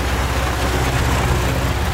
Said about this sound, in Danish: Der kom så en traktor.